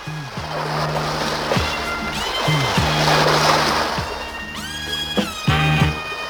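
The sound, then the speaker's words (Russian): Sea waves wash onto the shore of a blue sea as a steady hissing surf that swells through the middle, heard alongside sustained tonal notes with a few sliding pitches. “вышли на берег синего моря”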